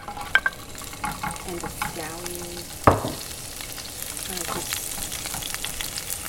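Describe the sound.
Ginger and scallion frying in hot oil give a steady sizzle, with stirring clatter and a few sharp knocks, one louder strike near the middle.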